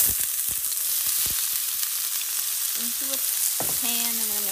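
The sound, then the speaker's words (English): Onions sizzling as they fry in a pan for a haggis recipe with carrots and lentils. A loud, steady hiss runs throughout with scattered crackles. “Onions. Putting in the onions.”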